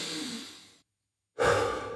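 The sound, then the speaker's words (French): Heavy breathing as someone catches their breath after exertion: a long, airy breath that fades out, a short silence, then another strong breath, with no talk. “Allez, on reprend notre souffle.”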